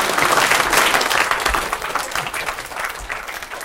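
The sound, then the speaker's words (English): Audience applause at a live talk: a burst of dense, loud clapping from many people that holds steady, then thins slightly toward the end. “Clap!”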